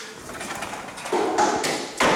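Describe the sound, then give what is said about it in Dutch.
The sliding door of a former factory under renovation rolls open with a broad, rough, rumbling scrape that grows louder in a few abrupt steps, with some soft taps along the way. “Moment, even kijken. Ja, de schuifdeur gaat open. Kunt even naar binnen.”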